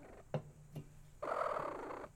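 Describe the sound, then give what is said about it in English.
Faint purring from a cat close to a microphone. Two light taps come first, then a soft rumbling purr lasts a little under a second. “That is a cat. Cat says hi.”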